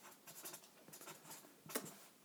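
A pen writing on paper during a pub-style quiz, as an answer is noted down. Faint, quick scratching strokes come in short irregular bursts, with one slightly sharper scrape near the end.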